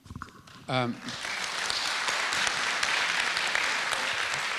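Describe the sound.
Audience clapping during a talk about community and the Voice. A brief voice comes first, then dense, sustained applause takes over and continues evenly to the end.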